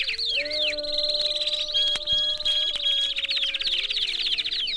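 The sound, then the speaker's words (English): A warbler flock sings in dense, high chirps and rapid trills that overlap without a break, staying loud and busy for the whole stretch with no voices. “This is the sound of a warbler flock”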